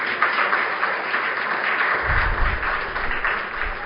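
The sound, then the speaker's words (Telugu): An audience applauds to welcome a guest at an event, with continuous dense clapping at moderate level and a low rumble that joins partway through. “So మనందరం first మంచి claps తోటి అన్నయ్య గారిని invite చేద్దాం।”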